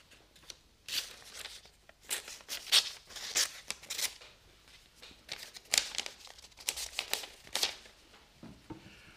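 A paper letter handled and opened: many bursts of crisp crinkling and rustling come in uneven clusters, with brief tearing-like scrapes between quieter pauses.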